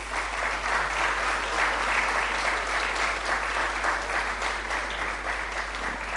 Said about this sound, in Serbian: ja vas molim da pozdravite pre svega dve dame koje predstavljaju ovaj fond danas. Jednim aplauzom.